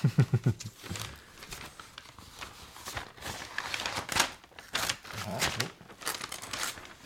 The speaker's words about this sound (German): Ich mach's doch ganz auf. Trau dich ruhig. Die Verpackung ist egal. Du kannst auch aufreißen.